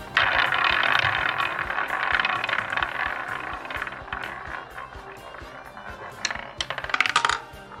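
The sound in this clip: Rattling clicks of a prize wheel being spun, a dense run of many rapid ticks. A burst of sharper, louder clatter comes near the end.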